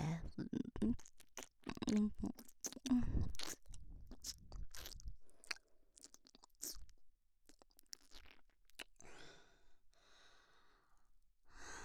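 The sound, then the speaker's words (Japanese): Ear-eating ASMR mouth sounds: wet smacks, soft crunchy clicks and heavy breaths close together, with a soft voice murmuring at times and a breathier, quieter stretch toward the end. “私のお耳もいただきます”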